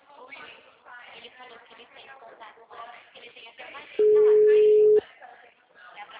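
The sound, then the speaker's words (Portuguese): A telephone call tone sounds as a single steady beep, about a second long, loud and level, while a voice talks before, during and after it. “Gente, vou fazer uma ligação gravada.”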